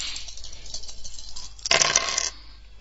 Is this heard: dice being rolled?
yes

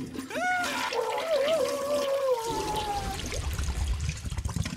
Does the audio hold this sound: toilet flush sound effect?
yes

